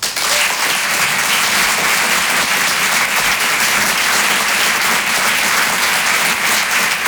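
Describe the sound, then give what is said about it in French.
Applause from a comedy club audience welcoming a performer to the stage, a dense, steady wash of many hands clapping that stays loud and even throughout without a break. “je vous demande de faire du bruit et de l'encourager très chaleureusement.”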